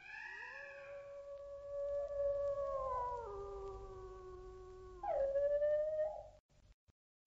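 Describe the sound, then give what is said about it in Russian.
Wolves howling: long, wavering howls that overlap and drift in pitch, one swelling louder near the end before the sound fades out. “Тихо! Кажись, волки!”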